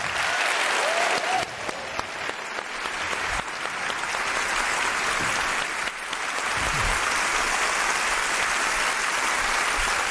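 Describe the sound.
Audience applause welcoming the author Edgar Selge to the premiere of his new book, dense steady clapping that holds for about ten seconds.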